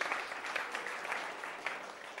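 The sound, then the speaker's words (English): Faint group clapping during a Bible lesson, a soft, even patter of applause with no voices. “Give them a clap.”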